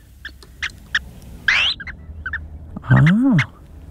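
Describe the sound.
A played recording of a small bird's call: a few short, high chirps and a quick rising whistled sweep, then a louder, lower warbling call near the end.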